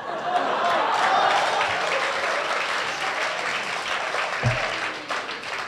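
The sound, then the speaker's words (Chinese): An audience applauds at a Chinese opera performance of a Cheng-school aria, a steady, full burst of clapping that gradually thins toward the end, with a voice present. “就这您还给鼓掌呢”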